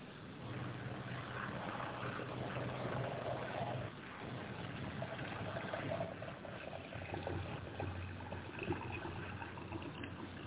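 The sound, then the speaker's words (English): Coffee being poured into a cup: a steady, soft liquid trickle and gurgle runs throughout, faint and muffled, its tone shifting slightly partway through. “Bear with me while I pour a cup of coffee here.”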